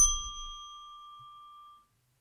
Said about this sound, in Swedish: Ska vi plinga in eh, mediehörnan? Ja, det är mediehörnan-dags, så är det. Ja, ett, två, tre.